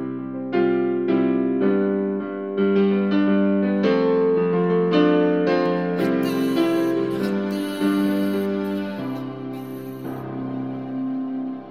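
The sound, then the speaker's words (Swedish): An instrumental jingle used as the theme of a football show, in which players' names were drawn from a hat. Sustained harmonic melody notes build in steps, then brighter high accents join in midway. The music plays alone. “Visst, Erik Hilmerssons komponerade vignett som vi använde mycket i början av Offsides podcast.”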